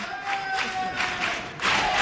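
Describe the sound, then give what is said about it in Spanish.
Spontaneous applause from an audience at a performance by a quartet group, mixed with crowd noise and some cheering. It comes in a few uneven surges and swells louder near the end. “Gracias por esos aplausos espontáneos que han salido.”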